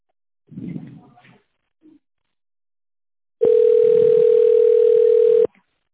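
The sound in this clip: Steady telephone line tone while a caller waits to be connected after an automated menu: faint rustling first, then a loud, flat, unbroken tone lasting about two seconds that stops abruptly.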